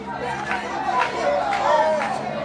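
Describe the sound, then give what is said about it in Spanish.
Spectators murmuring at a football match, a steady crowd chatter and hubbub that carries on evenly throughout with no loud cheers. “Bastante público que nos acompaña en esta mañana.”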